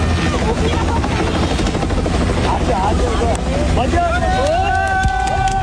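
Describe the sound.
A helicopter supporting a search and rescue operation in a disaster area produces a loud, steady, unbroken rotor and engine roar with heavy wind noise throughout.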